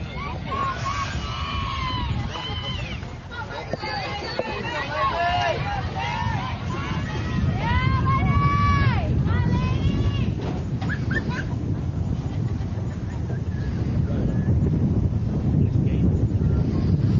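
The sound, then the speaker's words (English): Wind picking up at a ballpark buffets the microphone in a continuous low, rushing roar, with voices murmuring in the background. “It's been the wind as it's picked up here at the ballpark. It keeps blowing it open.”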